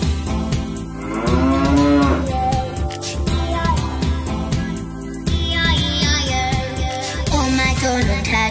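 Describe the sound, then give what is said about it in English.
Cows moo on a farm in a children's song, with a few drawn-out, lowing calls riding over a steady, bouncy musical backing at moderate loudness. “And on that farm he had some cows, E-I-E-I-O.”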